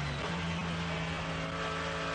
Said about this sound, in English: Leaping out of the carousel, a bit of a traffic jam exiting behind all the slower class cars.